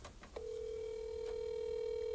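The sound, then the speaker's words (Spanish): Ringing tone of an outgoing call placed on a personal phone. After a brief click, a steady mid-pitched tone sounds and holds unbroken to the end over faint background noise. “Para que usted se dé cuenta que sí está timbrando de verdad.”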